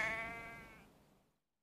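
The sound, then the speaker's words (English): Lambs bleating: a single faint, wavering, nasal bleat that trails away and fades into silence. “The lambs are getting restive.”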